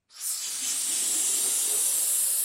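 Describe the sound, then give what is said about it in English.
Helium gas hisses as it inflates a latex balloon, a bright, breathy rush that starts suddenly and holds steady and unbroken to the end. “inflates a latex balloon with an increasingly precious gas.”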